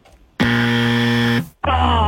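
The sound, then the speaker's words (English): A game show buzzer on a word-guessing show sounds twice: a loud, harsh, steady buzz lasting about a second, a brief silence, then a second, differently pitched buzz that runs to the end. “Oh, the buzzer's back.”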